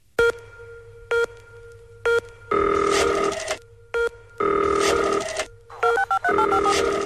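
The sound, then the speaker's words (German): A rotary telephone dial sound opens an electronic music intro: bright, phone-like tone bursts repeat several times, broken by longer, denser textured passages, with a quick run of stepped tones near the end. “Ich spiele es nochmal ab. Eine Wählscheibe ist zu hören.”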